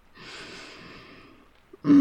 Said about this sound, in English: Deep breaths for me, okay? Breathe with me in.